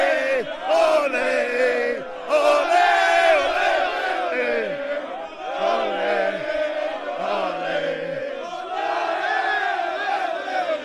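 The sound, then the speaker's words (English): A wrestling crowd at WWE Raw after WrestleMania chants olé, olé for Sami Zayn, a large mass of voices singing the rising and falling melody repeatedly, loud and sustained. “They got a certain song that Sami Zayn often gets. It goes a little something like, ole, ole, ole, ole, ole.”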